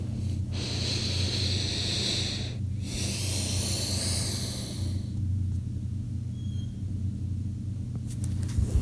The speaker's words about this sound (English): For instance, you can breathe in deeply. Let's try this together. Breathe in deeply. And when you breathe out, feel yourself sinking deeper and deeper and deeper inside of your body.